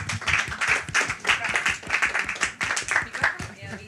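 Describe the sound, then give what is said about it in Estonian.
An audience applauding after a forum theatre performance, a dense run of rhythmic hand claps with voices talking over it throughout. “aga teeme aplausi sulle, aitäh.”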